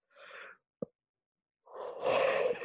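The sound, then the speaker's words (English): A person yawns. A short breathy sound and a brief click come first, then a longer, louder, breathy voiced yawn at the end. “sorry, to yawn”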